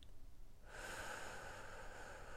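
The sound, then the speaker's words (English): Deep breathing during a guided relaxation exercise: a steady, breathy rush of air starts after a short quiet moment and holds at an even level to the end. “we're going to start together by taking just a few deep breaths in and out.”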